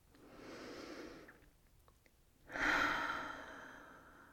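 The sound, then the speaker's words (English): A deep breath: a slow, airy inhale through the nose, a short pause, then a longer and louder breathy exhale that gradually fades, quiet and alone with no talking. “Let's start by taking a deep breath.”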